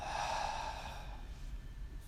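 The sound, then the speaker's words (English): One deep exhale out through the mouth during a home yoga breathing exercise, soft and breathy, trailing away over about a second with no voice over it. “Again, deeply in through the nose, filling up. Out through the mouth.”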